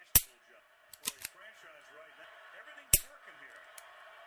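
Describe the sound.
Dry fire practice with a gun, its trigger clicking: a few sharp, dry clicks spaced irregularly, some louder than others, over a faint steady background.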